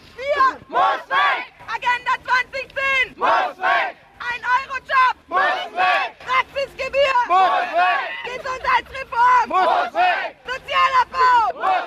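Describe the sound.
Crowd chanting at a German street protest against the Hartz IV labour reforms around 2004-2005. Loud shouted phrases come in rhythmic bursts separated by short pauses.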